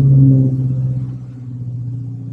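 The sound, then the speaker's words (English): A neighbour's truck engine gives a deep, steady rumble that is loudest at the start and then eases to a lower, quieter drone. “an engine. My neighbor starting up his truck.”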